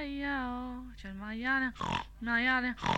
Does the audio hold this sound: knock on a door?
no